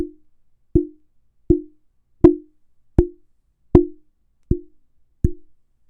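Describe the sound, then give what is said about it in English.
Fingers tap a Neewer NW-700 budget microphone to test for resonance, eight sharp, hollow, low-pitched knocks at a steady pace, each with a short ringing tail and silence between. “I'll go ahead and tap on the microphone to see if there are any kind of resonant frequencies.”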